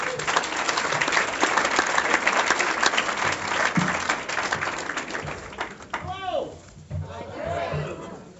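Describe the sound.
A comedy club audience applauds as a comedian is welcomed on stage. Loud, dense clapping fills the first five seconds, then thins and tapers off while a voice begins speaking.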